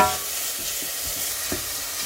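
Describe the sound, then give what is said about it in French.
Onion and garlic soften in hot olive oil in a large pan with a steady, faint frying hiss, marked by a few soft stirring taps. “faire chauffer un petit peu d'huile d'olive dans une grande casserole. Si vous préférez mettre un peu de beurre, faites-vous plaisir. Et puis là, on va faire fondre l'oignon et l'ail avant d'ajouter les topinambours.”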